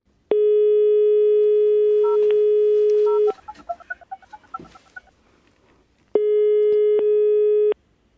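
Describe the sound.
A telephone ringback tone sounds while a call is placed: two long, steady, loud tones separated by a gap, with faint warbling chirps in between.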